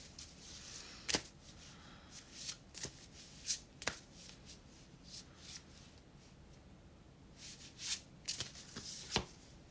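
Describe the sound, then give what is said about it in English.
Cards from a Soulflower oracle deck are shuffled and one is pulled, giving faint soft shuffling with many scattered crisp flicks and snaps of card stock, a few of them sharper. “Okay, I'm going to pull a card for the collective from this Soulflower deck.”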